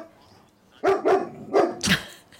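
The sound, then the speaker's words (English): A dog barks four times in quick, uneven succession, short sharp yaps that are fairly faint against a quiet background. “I have no idea why he started barking.”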